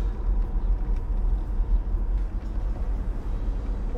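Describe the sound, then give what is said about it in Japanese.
Steady low rumble of road and engine noise inside a moving car, continuous and even throughout, with no voices. “はい、今運転中です。”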